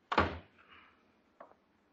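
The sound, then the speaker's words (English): A door in a Kansas town is shut with one solid thunk, followed by a faint rattle and a small, soft knock about a second later. “Will you shut the door? You're letting in all the flies in Kansas.”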